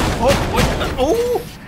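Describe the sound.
Sniper rifle gunfire in a Counter-Strike match: a couple of sharp, booming cracks burst out under excited talk.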